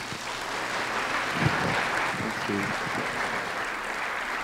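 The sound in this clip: Applause from a church audience welcomes a guest speaker, a steady, even roll of many hands clapping throughout, with a few faint voices briefly rising within it near the middle.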